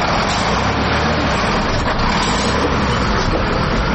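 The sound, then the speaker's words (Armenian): Heavy trucks pass along a busy, pothole-damaged intercity road in a loud, unbroken roar of engine and tyre noise. The roar holds steady throughout without distinct individual pass-bys, and no voices are heard. “Այդ ընթացքում տասնյակից ավելի բեռներ փոխադրող մեքենաներ անցան, փորձելով շրջանցել փոսերը։”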